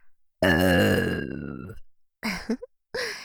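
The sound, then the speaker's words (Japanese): A woman's long, loud, voiced burp in an intimate Japanese roleplay, slowly falling in pitch, followed after a pause by a couple of shorter throaty bursts. “まずはお兄さんをムラムラさせるためにチューをしながらゲップをします。”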